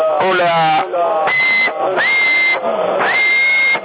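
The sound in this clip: Whistling into a CB radio microphone on 27.075 MHz: three high whistled tones, the second and third sliding upward before holding steady, all through narrow, band-limited radio audio. Talk comes first.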